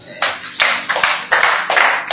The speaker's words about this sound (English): Let me clap very well for my brother.